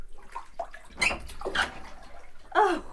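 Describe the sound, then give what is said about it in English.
Water sloshing in a bathtub during a soak, with a few soft swishes and light splashes rising over a quiet, steady background. “Just having a soak.”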